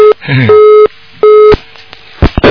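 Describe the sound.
An interrupted telephone busy tone sounds after a call-in line drops, with two loud, even-pitched beeps separated by a gap. A brief voice overlaps the first beep, and a few crackly bursts of line noise follow.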